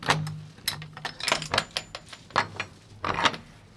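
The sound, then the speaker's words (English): A magnificent old door at Belaf Old Church is opened with a series of heavy wooden clunks, creaks and metallic rattles in an irregular rhythm. “Now, that is a sound that we haven't heard in quite a long time. It's the sound of a magnificent old door in Belaf Old Church being opened and being left open to welcome the members of the public”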